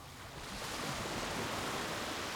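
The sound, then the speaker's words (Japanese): Ocean waves wash in a soft, continuous hiss that swells after the first half second and then holds steady, quiet and with no wind or voices. “雲もない風もない、波音以外何も聞こえない。”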